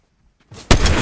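Sniper rifle fire in the Fortnite video game: silence, then a brief softer burst, followed by one loud, sharp blast that keeps roaring without a pause until the end.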